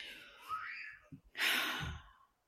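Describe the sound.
Someone having a tantrum in the next room: a faint wailing cry, a couple of soft thumps, then a louder breathy shriek-like outburst that trails off.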